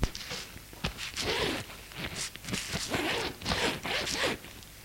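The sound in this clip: A bag set on a bed is unzipped open: a run of quick, raspy zipper strokes with fabric rustling, repeating in short bursts at moderate loudness with no voices.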